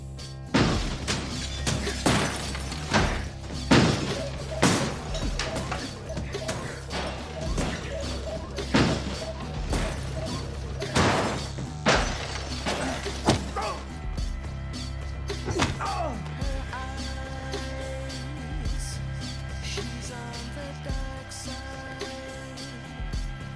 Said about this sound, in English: smashing up our arcade